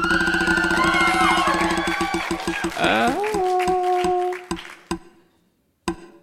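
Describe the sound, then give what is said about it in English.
A prize wheel spun on stage at a live show in Chattanooga ticks in rapid clicks that gradually slow and spread apart until a final lone click, with crowd noise and voices over the start. “Let's spin the wheel.”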